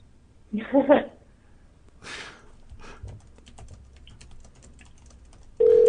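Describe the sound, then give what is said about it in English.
Someone types a text message on a phone. A short burst of voice comes first, then faint scattered tapping clicks follow, and a steady tone starts abruptly at the very end. “Let me text her.”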